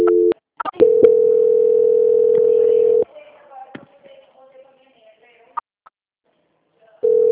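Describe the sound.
A steady telephone line tone sounds while a dropped call is being transferred, holding for about two seconds after a few clicks, then cutting to faint clicks and rustle before the tone briefly returns at the end.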